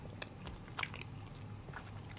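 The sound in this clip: Faint, soft chewing of a chewy, springy food eaten raw, with sticky mouth sounds and a few small clicks and no talk.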